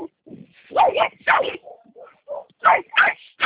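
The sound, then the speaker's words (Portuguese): Many dogs bark in the street in a rapid, loud, uneven series of barks and high yips, with short gaps between the bursts. “tem um monte de cachorro latindo aqui, eu só vou abrir o portão, então não vou conseguir te ouvir direito. Tem muito cachorro na rua”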